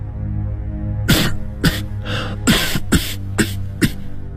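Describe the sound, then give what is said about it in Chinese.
A woman breaks into sudden, violent coughing: a run of several harsh, loud bursts at uneven intervals, with no talk around them. “忽然猛烈地咳嗽起来。”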